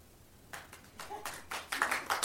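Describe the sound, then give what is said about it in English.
Quiet, scattered applause from a small audience, a few uneven handclaps that pick up slightly and stay sparse and irregular rather than building into a full ovation. “Pause for applause.”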